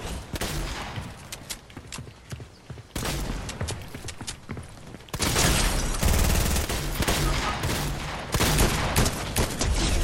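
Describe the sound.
Exotic weapons fire in the video game Fortnite, loud rapid bursts of crackling shots in several dense volleys, the firing growing heavier and more continuous toward the end.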